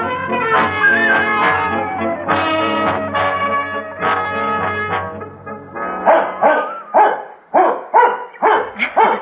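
A dog gives long, drawn-out howling tones, then breaks into a rapid run of many sharp, loud barks in quick rhythm.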